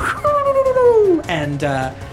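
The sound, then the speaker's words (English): A human voice imitating a hyena-like laughing yip call: a long, whining tone that slides steadily downward, followed by two short, bright yipping bursts. “very hyena sound, like that kind of like a laughing yip”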